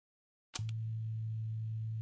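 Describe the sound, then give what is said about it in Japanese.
A vibrator buzzing: after about half a second of silence it switches on abruptly into a steady, low, constant hum with a faint harmonic overtone, holding one level to the end. “大人のおもちゃ、バイブってやつだよ。”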